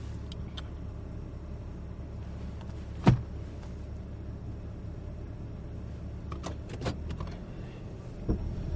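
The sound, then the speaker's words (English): A car's engine rumbles steadily as it drives out of a snowbank, broken by one sharp click and a few faint knocks later on. “Ew, that didn't sound good. Drive out of the snowbank.”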